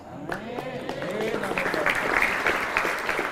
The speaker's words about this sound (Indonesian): tepuk tangan aja, gak tahu alasannya.